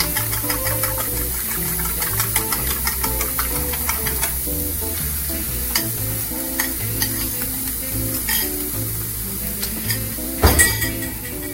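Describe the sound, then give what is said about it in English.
Raw eggs are whisked quickly with a fork for a scramble. A fast, steady run of light scraping and clinking strokes lasts throughout, with one sharper clatter near the end. “So I'm gonna use my fork. Whisk these eggs up real quick.”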